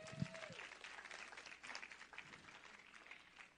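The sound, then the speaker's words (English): Faint applause from a church audience, a steady wash of many hands clapping that runs evenly through the whole stretch. “Give him a hand.”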